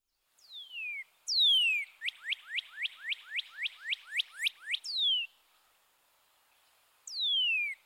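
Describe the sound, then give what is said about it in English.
A bird's whistled call of clean, tonal notes. Long downward-sweeping whistles open the call, then a rapid, even run of many short downslurred notes follows. After a pause, another falling whistle sounds alone. “Bird 7.”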